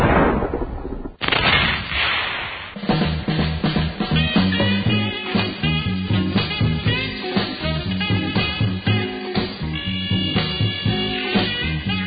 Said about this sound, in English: You don't hear too many songs that start with a shotgun blast, but this one does.